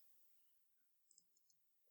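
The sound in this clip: Computer mouse clicking: a few small, sharp ticks in quick succession, very faint against near silence.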